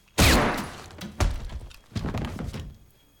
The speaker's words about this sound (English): Teddy brings up a pistol from his pocket and shoots Harry in the head.